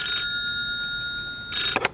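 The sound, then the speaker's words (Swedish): A fire station telephone rings, a steady, bright bell-like tone that holds throughout, with louder bursts of ringing at the start and again near the end. “Just då ringer brandstationens telefon.”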